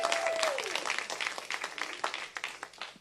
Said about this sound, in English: Hey, y'all give it up one more time for the worship leaders this morning that helped lead us this morning.